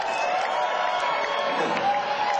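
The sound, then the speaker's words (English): A concert crowd applauds and cheers in a dense, steady roar that stays at an even level for the whole clip. “You guys are the best fucking crowd that I think any of us have ever seen in our entire lives. So give yourselves a big hand.”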